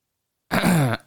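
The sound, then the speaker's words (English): One gruff throat clearing breaks the silence, a short voiced rasp lasting under half a second, and another brief sound starts just after it. “Let me clear my motherfucking throat.”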